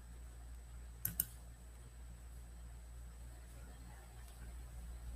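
Computer mouse clicking: two quick, sharp clicks close together, faint over a steady low hum, with quiet stretches either side.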